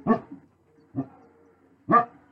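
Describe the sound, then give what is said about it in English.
Dogs bark in short, sharp bursts: three loud barks spaced about a second apart, with a softer yip just after the first, and quiet gaps between them. “Sorry, my dogs are going nuts.”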